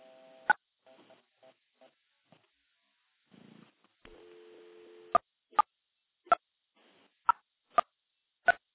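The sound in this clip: Telephone tones while dialing nine for an outside line: a few short beeps, a steady two-note dial tone lasting about a second, then a series of sharp, evenly spaced clicks.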